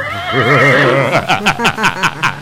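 Loud horse whinny, a quavering call with a wavering pitch that breaks into several rapid, shaking pulses toward the end, heard alone without talk.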